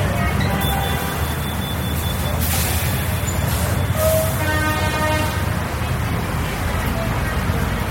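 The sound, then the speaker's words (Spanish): Ambient noise inside a bus transit station: a continuous low rumble layered with whining tonal hums and a hissing, brake-like sound, all at a steady, moderate level. “¿Estamos dentro del bus? ¿Salimos? ¿Cómo cambia el sonido al que estamos expuestos en la estación?”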